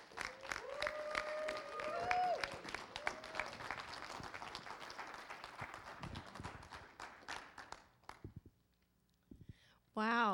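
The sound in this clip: Applause from a City Life gathering welcoming guests, loud and dense clapping with some crowd voices that thins out and dies away near the eighth second, after which a person begins speaking.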